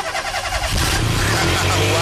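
A car engine being started: a short cranking stretch, then the engine catches and settles into a steady, loud, low rumbling idle.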